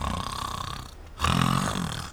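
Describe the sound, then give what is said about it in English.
Snoring from a sleeping pirate captain in a ship's cabin: two loud, rasping snore breaths separated by a brief quiet pause. “It sounds like snoring.”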